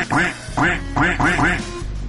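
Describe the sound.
Duck quacking: a quick run of several raspy, nasal quacks with short gaps between them, loud and clear with no other sound around them.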